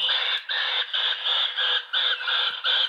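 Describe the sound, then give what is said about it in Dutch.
A fighting Japanese macaque calling, a rapid series of harsh, high, strained screams in short repeated bursts with brief gaps, loud and alone. “Wat staat daar? Een vechtende Japanse makaak.”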